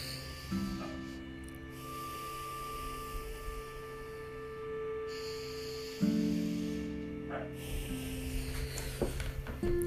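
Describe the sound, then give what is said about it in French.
Two slow, deep breaths, each a long airy rush of air, the second slightly louder, over a faint steady hum. “Vous allez prendre deux grandes respirations.”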